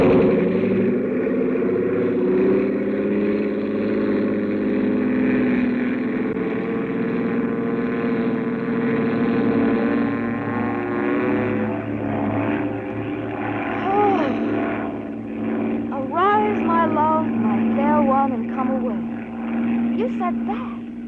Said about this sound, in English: This is going to be the fastest takeoff in the books. Here we go.